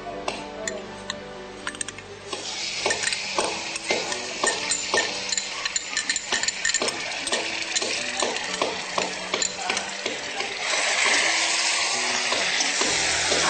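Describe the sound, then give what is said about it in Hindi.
Fresh coriander paste fries in hot oil on a gas stove: a constant crackling sizzle broken by many sharp ticks and scrapes of stirring, with the hiss swelling louder and brighter near the end. “Gas थोड़ा कम करिए, इसे 2 minute भूनिए।”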